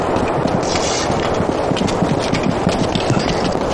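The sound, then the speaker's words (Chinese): Horse hooves clip-clop loudly as a rider leaves on horseback, a rapid, dense and steady run of hoofbeats that never pauses. “马记者已经骑马走了”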